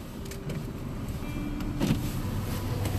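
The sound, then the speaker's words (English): A car pulls out of a back parking lot, heard from inside as a steady, low engine rumble with faint mechanical clicks over an even background hum. “I'm driving and recording. Maybe not wise.”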